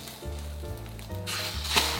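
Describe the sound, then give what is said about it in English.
An egg frying in a pan, a faint, steady sizzling hiss that grows brighter after the midpoint, with a low hum running underneath. “So now I'm ready to flip over the egg, and you want to do it carefully so you don't break the egg. So I've got two spatulas here to help me.”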